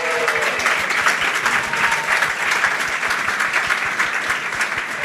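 A studio audience applauds a guest at a live show with dense, steady clapping that holds at an even level for the whole stretch.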